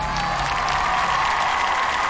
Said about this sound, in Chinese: 接下来让我们欢迎来自全球各地热爱音乐的100位国际大众评审，掌声欢迎。